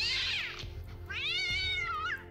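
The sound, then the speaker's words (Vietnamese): A cat yowls while fighting a snake, giving two drawn-out, high, wavering cries separated by a short pause, the second longer than the first, with no voices. “con mèo càng đánh càng hăng, còn con rắn càng lúc lại càng bị thương”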